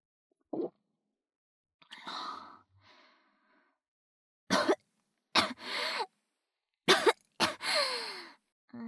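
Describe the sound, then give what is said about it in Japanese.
Harsh coughing after choking: a few sharp coughs, each trailing into a wheezy breath, with a breathy sigh before them. Fairly faint, with silence between bursts. “大丈夫、むせただけ。”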